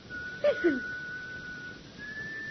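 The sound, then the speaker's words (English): Whistled notes of a funeral march: two brief, faint sliding notes in quick succession, followed by a thin steady tone that lingers underneath. “the sinister whistling notes of the funeral march sound once again, almost in their very ears”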